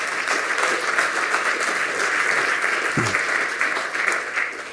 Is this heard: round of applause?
yes